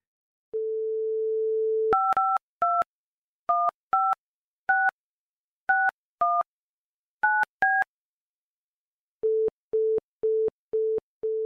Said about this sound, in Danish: Husker du at trykke landekode først? For... Ring igen.